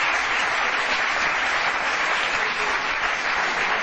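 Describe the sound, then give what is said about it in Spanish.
Audience applause at a live football-trivia quiz show, a thick, even roar of many hands clapping, sustained at a steady level throughout without a break or voices. “Un aplauso, lo habéis acertado.”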